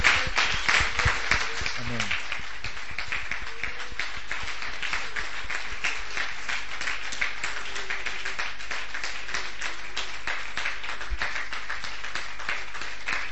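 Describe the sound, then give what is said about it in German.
A church audience claps in steady, rhythmic applause that runs evenly through the whole stretch at a moderate level, with a brief voice near the start. “Let's give Jesus a big praise. Lasst uns für Jesus klatschen.”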